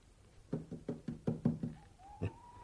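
Knocking on a door: a rapid run of firm knocks, followed by a single knock after a short pause, with no talk.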